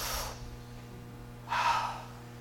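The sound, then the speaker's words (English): A deep breath is drawn in during a church talk: a brief breathy rush at the start, a quiet pause, then a louder, longer airy breath. No words are spoken. “Take a deep breath.”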